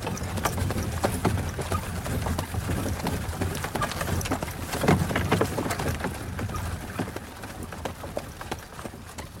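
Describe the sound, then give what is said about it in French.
Clip-clop of horses' hooves as horses arrive and stop at a door: a steady run of many hoof strikes over a broad, noisy background, at an even level throughout. “Avez-vous vu les chevaux qui viennent de s'arrêter devant ma porte”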